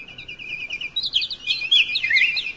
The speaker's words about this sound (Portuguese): voltava o pássaro azul, contente como ele só, trazendo um lindo trenó puxado por milhões de passarinhos